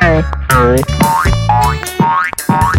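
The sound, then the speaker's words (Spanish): Cartoon boing effects suggest bouncing on a trampoline. They come as a loud, rapid series of springy twangs, each with a sweeping, wobbling pitch, repeating many times in quick succession with no talking. “saltando sobre hasta ahora su mullida casa, como si en vez de un confortable hogar fuera una divertida cama elástica sobre la que cae y rebota.”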